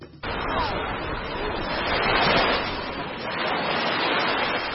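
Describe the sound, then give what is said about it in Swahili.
Gentle Indian Ocean waves lap the shore at Mombasa near Fort Jesus in the old town, a soft continuous wash that swells and eases a couple of times. “Nimesimama kando kando ya bahari Hindi, mawimbi mepesi yakipiga hadi ufoni.”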